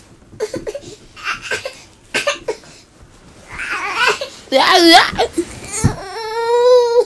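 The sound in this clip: A baby fusses and cries: short whimpers and babbling sounds give way to louder, strained wails with strong harmonic tones, ending in a sustained cry.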